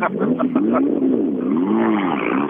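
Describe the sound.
A rally car engine revs hard as it drives off, its loud, continuous note wavering up and down throughout, with no voices.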